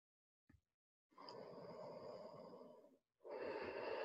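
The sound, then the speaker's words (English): Big exhaled breaths during a breathing exercise: two long, loud, breathy exhales, the second running to the end, with a brief soft sniff before the first. “Big exhalations. Put your attention on listening for your out breaths.”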